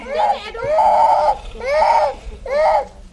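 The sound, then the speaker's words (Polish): A young child among a group of children under a baobab tree in a village settlement cries loudly in three long wailing sobs with short breaks between them. “Pod baobabem grupka dzieci. Jedno płacze, widząc poruszenie naszym przyjazdem.”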